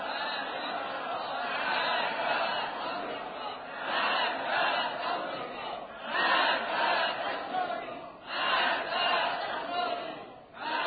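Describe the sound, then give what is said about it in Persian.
Massed voices of a crowd chant slogans at a religious seminary rally, a dense, loud roar that swells and dips in rhythmic waves and never drops out. “آنان که میشنوند و مینویسند بدانند این صدای فیضیه است، این صدای حوزه علمیه است”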